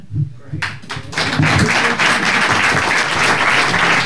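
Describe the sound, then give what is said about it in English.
An audience breaks into applause within the first second and a half, building into a loud, dense clatter of many clapping hands that holds steady to the end. “Welcome back. More ovations tonight than we know what to do with.”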